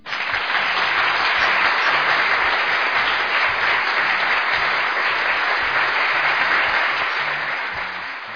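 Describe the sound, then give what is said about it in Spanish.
Strong, dense applause from many hands clapping, a loud and steady wash of sound that holds evenly for several seconds and tapers slightly at the very end. “y por eso les dejo este fuerte aplauso.”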